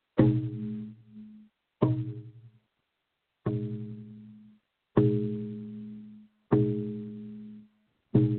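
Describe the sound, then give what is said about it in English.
A handmade drum decorated with Kokopelli, struck in a slow, steady beat. Six deep, resonant booms sound at even intervals, each ringing and fading before the next strike. “In fact, let me grab my drum off of the wall here. And this is a drum that I built a long time ago. It has Cocopelli on it. And I'm going to drum the beat that we used last night. So this is the sound of the beat.”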